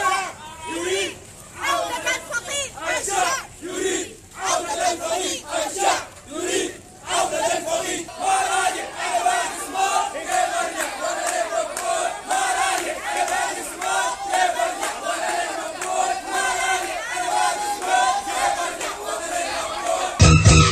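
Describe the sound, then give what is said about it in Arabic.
A protest crowd chants slogans at a solidarity march demanding to know the fate of the missing: loud, massed voices rise and fall in rhythmic shouted phrases, continuing without a break. “ورفع المشاركون في المواكب والوقفات صور للمفقودين، كما رفعوا لافتات ورددوا هتافات تطالب السلطات بالكشف عن مصيرهم.”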